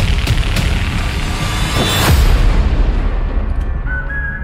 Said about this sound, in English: So many things are exploding on camera right now, and they literally don't make sense. It's just random old barns are exploding.